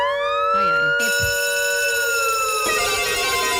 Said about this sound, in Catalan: Escolta aquesta sirena.